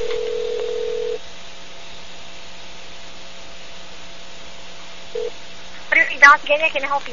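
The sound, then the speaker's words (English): A telephone call being dialed: a steady dial tone sounds for about a second and stops, leaving a low hum, then a short single keypad beep follows before a voice starts talking. “All right, let's give them a call.”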